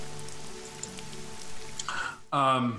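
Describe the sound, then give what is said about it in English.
Rain falls on a surface in a swamp, a soft, steady hiss of patter, until a louder tonal sound cuts in near the end. “The rain eventually subsides.”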